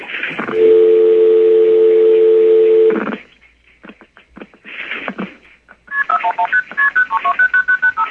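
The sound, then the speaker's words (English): A telephone goes off hook on a crossbar exchange test line: a steady dial tone hums loudly for a couple of seconds, then a run of sharp clicks follows, and finally a rapid string of beeping multifrequency signalling tones. “And so let's go off hook and dial the number.”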